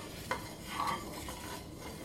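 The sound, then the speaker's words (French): A spoon stirs cream in figure-eight motions, making a soft, continuous swishing and scraping with one faint clink near the start; no one speaks. “On m'a toujours dit de remuer en 8. Donc moi je remue en faisant des 8 avec ma cuillère.”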